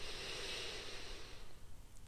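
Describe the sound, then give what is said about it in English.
A deep, easy breath drawn in during a seated meditation, a soft airy hiss lasting about a second and a half before fading to quiet. “So, I invite you to be sitting nice and upright. Take a nice, easy, deep breath in.”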